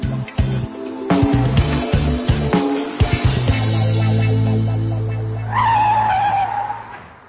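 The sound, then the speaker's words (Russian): A car brakes to a stop with its tires skidding: a loud engine with choppy, surging bursts gives way to a long, sustained tire squeal that becomes harsher and higher toward the end. “Перед Растяпкиным затормозила машина.”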